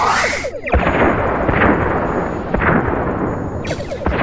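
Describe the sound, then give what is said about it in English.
Photon torpedoes fire at enemy warbird starships in a sci-fi battle, exploding as a dense roaring rumble broken by a few sharp booming bursts. “Fire on all enemy ships. One photon each should do. Let's not waste ammunition. Target locked and acquired on all warbirds. Firing.”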